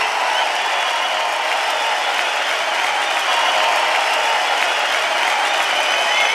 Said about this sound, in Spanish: Aplauso, Ariel Roth.